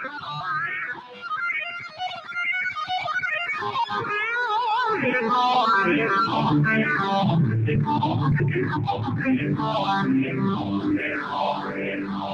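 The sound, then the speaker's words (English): Loud distorted electric guitar run through effects, its sustained tones warbling and sweeping up and down continuously with a harsh, buzzing edge. “Dude, that distortion right there, like towards the very end.”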